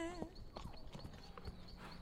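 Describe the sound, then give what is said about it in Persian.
A horse's hooves clip-clop in a faint, steady rhythm, with voices talking over the footfalls throughout. “ای کلودیا، فکر کنم اسبت کار خرابی کرده. اسب دیگه.”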